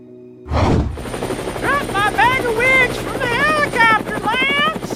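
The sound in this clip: Helicopter rotor noise starts abruptly and then holds as a steady, loud throbbing drone, with voices over it.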